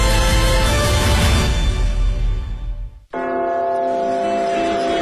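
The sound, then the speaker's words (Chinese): The Big Ben clock tower bell tolls loudly with a rich, dense ring that fades away, then a second stroke strikes sharply and rings on steadily. “大本钟的钟声记载着时间的流逝”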